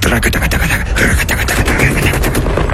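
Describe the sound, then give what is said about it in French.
Firing squad salvo: dense, rapid, overlapping gunshots crackle loudly and continuously for about three seconds, with no voices. “donne le signal d'ouverture du feu. J'entends une salve de tir, comme je n'en ai plus jamais entendu.”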